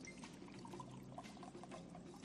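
Mineral water pours from a bottle into a glass as a faint, steady trickle lasting a couple of seconds, alone without voices.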